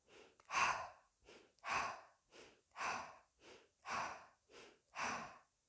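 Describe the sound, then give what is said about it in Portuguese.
Rhythmic breathing in a breathing exercise: soft inhales through the nose alternate with louder exhales through the mouth, about five full cycles at an even, unbroken pace. Only breath is heard, with no talk. “Inspirando pelo nariz, expirando pela boca, no seu ritmo, porém sem parar.”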